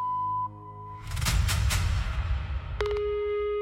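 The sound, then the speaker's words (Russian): An answering machine sounds its beep before recording a message: after a short high tone, a burst of noise and clicks, a steady tone cuts in and holds to the end. “Оставьте сообщение после звукового сигнала.”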